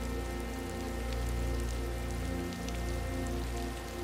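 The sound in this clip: Steady rain falling in a garden, a continuous, even hiss of drops on surfaces that holds at a constant level throughout, with no voices.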